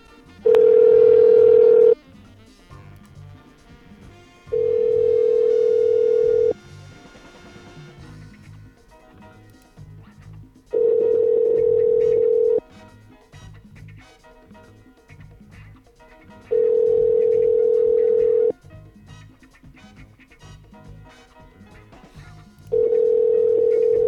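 A telephone rings out on a call to a number, heard as five steady, even-pitched ringback tone bursts of about two seconds each, separated by quieter gaps.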